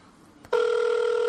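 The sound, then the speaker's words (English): Ringback tone of an outgoing telephone call, a steady electronic purring tone that starts partway in after brief near-silence and holds evenly to the end, with no voices. “Let's call them up, see what's happening. Hopefully it doesn't just go to voicemail.”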